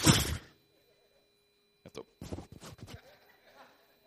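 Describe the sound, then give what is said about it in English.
A voice imitates a horse snorting with a single short, forceful, breathy burst. After a pause of over a second, brief, quieter talk follows. “When the Bible says here that Jesus was deeply moved, this was the same phrase that they would use when a horse would give one of these.”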